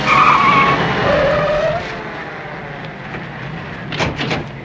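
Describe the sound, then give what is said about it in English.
Police cars race up and skid to the curb: a loud, high tire squeal comes first over engine rumble, then the engine noise settles. A few short, sharp clacks follow near the end. “Two police cars race up to the curb.”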